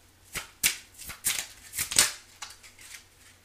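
Cards being drawn from a deck, heard as a few crisp papery swishes and soft snaps at an uneven pace, fairly faint, with no talking.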